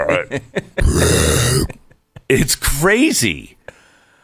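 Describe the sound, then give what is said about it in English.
A voice imitates a buffalo's burping, a loud, drawn-out, raspy belch-like sound set among shorter guttural vocal bursts. “you know what sound they make? They sound like they're burping.”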